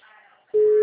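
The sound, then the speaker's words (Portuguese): A telephone call tone sounds while a call is being placed: a steady, single mid-pitched tone starts abruptly about halfway through and holds at constant loudness to the end. “eu tô ligando pra ela aqui”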